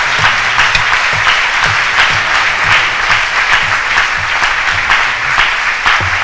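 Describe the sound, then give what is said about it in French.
Congregation applauding in church, a dense, loud, steady wash of clapping hands with a soft low thump recurring in a regular beat underneath. “Acclamons le Seigneur tous ensemble. Let's clap for the Lord all together.”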